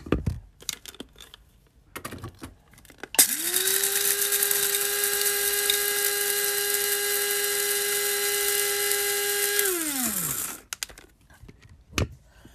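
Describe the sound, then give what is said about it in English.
An electric coffee grinder grinds coffee beans with a loud, steady high whine lasting several seconds, then winds down in pitch as it stops, with faint clicks before and after. “One moment, I've got to grind the coffee.”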